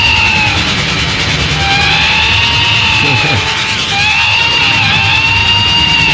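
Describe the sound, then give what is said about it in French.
An analog synthesizer tweaked live on stage gives loud, sustained gliding tones that waver and bend up and down over a dense, rumbling drone. “Là, on bidouille en direct, hein, le synthé. En direct. Il fait de la recherche sur scène.”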